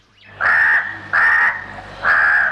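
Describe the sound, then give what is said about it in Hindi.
A crow caws three times, each call a long, harsh, nasal note with short pauses between them. The calls are loud and stand alone, with no talk. “कौआ उनके पास पहुंचा और बोला,”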